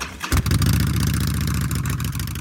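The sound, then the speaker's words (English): A Harley-Davidson motorcycle engine catches with a quick burst, then settles into a steady, loud, throbbing low rumble with an even pulsing beat. “Yes, adventure begins on a Harley Davidson.”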